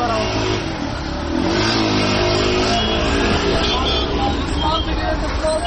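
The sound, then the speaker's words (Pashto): Cars drive through city streets in Takhar province, Afghanistan, during Eid al-Fitr. Engines rev and accelerate in a steady, loud traffic roar, with a murmur of voices mixed underneath. “په خارونو کې د موټرو د تک را تک شور”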